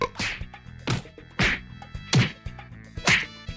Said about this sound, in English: Stop! Stop! Why are you hitting me? Please stop!